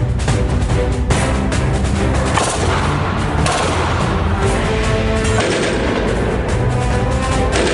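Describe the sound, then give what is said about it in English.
Fully automatic fire from a Glock 18C machine pistol, a loud, dense stream of rapid shots that blur into a continuous crackling roar. “So this is a Glock 18C machine pistol. This fires about 11 rounds, so it's pretty crazy.”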